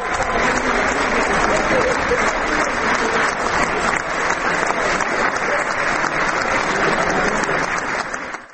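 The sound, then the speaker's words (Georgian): An audience ovation for Georgian polyphonic songs in the Prague city library: loud, dense, sustained applause from many hands that holds steady for several seconds and then tapers off at the very end. “საოცრად შესრულებულმა მრავალხმიანმა ქართულმა სიმღერებმა არაერთხელ დაიმსახურა პრაღის ქალაქის ბიბლიოთეკაში შეკრებილი მაყურებლის ოვაცია.”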